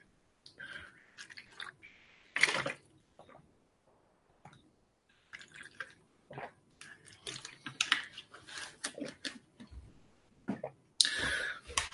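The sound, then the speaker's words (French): Someone drinking discreetly: many small gulps, swallows and mouth clicks come in soft, irregular clusters separated by quiet pauses. “J'en profite pour boire discrètement.”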